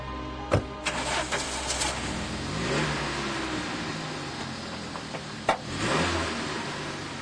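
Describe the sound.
Car doors slam hard with two sharp thuds, and between them an engine revs and drones as the car pulls away.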